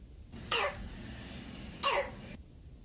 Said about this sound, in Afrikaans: So klink dit as jou kind kroep het, wat dan die gevolg kan wees van masels.